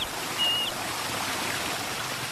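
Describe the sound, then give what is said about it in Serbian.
A waterfall plunging into a deep gorge, a steady, dense roar of rushing water that holds at an even loudness throughout. “Mlaz vodopada survava se u ambis podamnom.”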